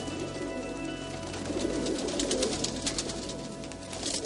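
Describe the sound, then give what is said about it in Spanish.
Pigeons crowd the ground and eat scattered cake crumbs, cooing in a steady, busy murmur that mixes with a continuous background noise. “El suelo está repleto de palomas que picotean con avidez.”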